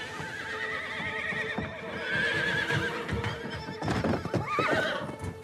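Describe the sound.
An agitated horse whinnies in loud, wavering high-pitched calls, with hooves clopping over a steady noisy background throughout.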